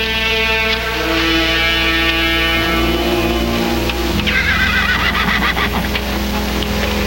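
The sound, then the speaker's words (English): A horse whinnies as it is led into a barn after a ride. The sound is loud and sustained through the whole stretch, and no one speaks. “Dismounting at the open barn door, he leads his horse inside.”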